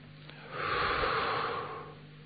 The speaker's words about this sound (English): Breathe in through the nose and out through the mouth.